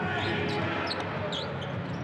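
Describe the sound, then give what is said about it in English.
A basketball is dribbled on a court during a game, its faint bounces under a steady wash of crowd noise. “Right hand dribble by Warren”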